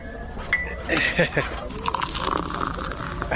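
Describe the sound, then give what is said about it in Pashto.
Tea is poured into a cup, a soft liquid trickle with light clinks of crockery, heard under people talking. “صبر چې یوه پیاله چای درته واچوم چې ستړی شوی به نه نه ملک صاحب نه نه نه ته دې له ځایه مه خوځېږه زه خپل اچوم”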